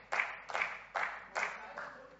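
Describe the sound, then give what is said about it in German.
One person clapping alone in a parliament chamber: five slow, evenly spaced claps, each a sharp slap with a brief trailing ring, the last a little softer. “Ja, ich glaube, gleich klatscht er nicht mehr.”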